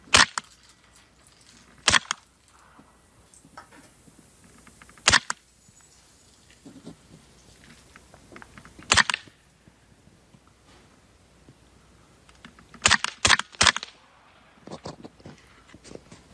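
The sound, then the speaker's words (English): A gun firing subsonic ammunition gives several sharp but muted cracks at irregular intervals, with a quick cluster of three near the end, over a faint background hiss. “And also I'm using a subsonic ammunition now, so let's see here, holding it and firing at the same time.”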